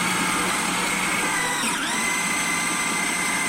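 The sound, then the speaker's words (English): A food processor whirs as it mixes nut flours with coconut oil. The loud, steady motor drone runs throughout, its pitch dipping briefly near the middle before recovering. “I'm now going to make it noisy again and turn on the food processor whilst adding the coconut oil so the nut flours start to bind to it.”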